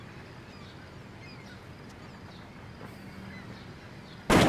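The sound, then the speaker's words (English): A sudden, loud gunshot-like bang bursts in at the very end, after several seconds of quiet, low background noise. “Ezekiel shot that guy! And he just domes him.”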